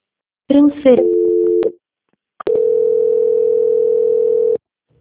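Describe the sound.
Telephone tones as a call is transferred to a bank's quality-control line: a short, stepped electronic tone, a pause, then one long, steady, loud beep of about two seconds, with no talk over it.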